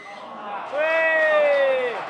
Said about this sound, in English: And that's me cheering because England did something wrong.